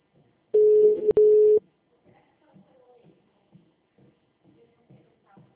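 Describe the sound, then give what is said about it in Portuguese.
Ringback tone of a call placed to a client: a single steady mid-pitched beep lasting about a second with a brief click in the middle, then faint low murmurs. “Agora é rapidinho, né? Deixa eu. Tô ligando pra cliente.”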